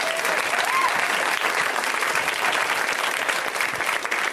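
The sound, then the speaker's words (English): Audience applause for the guests: dense, loud clapping that holds steady from start to finish with no break. “Thanks for the work you're doing with kids. Let's hear it for those dudes.”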